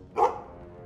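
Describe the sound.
A single dog bark rings out, one short, loud, mid-pitched woof that fades quickly, with nothing else heard around it.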